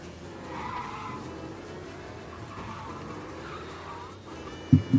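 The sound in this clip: A race car engine drones steadily with tyres skidding in a racing video game. A rough, continuous hum carries faint squealing and ends with two sharp, loud knocks.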